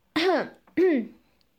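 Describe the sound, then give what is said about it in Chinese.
Two dry, voiced coughs, close together and almost like throat clearing, each a short rising-and-falling burst with a brief gap between them. “在嘈杂的环境里，我略带生气地干咳了两声。”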